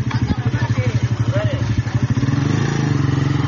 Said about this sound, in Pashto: دغه د موټر سایکل چنچې رکشې ګرځي سودا ګرځي په دې کلو کې